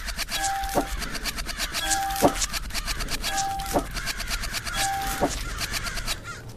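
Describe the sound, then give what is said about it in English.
Zombie crows cry out during a video game battle. Four spaced, repeated tonal calls ring over a dense, rhythmic, pulsing backdrop that runs throughout. “Zombie crows. Ah. The battle.”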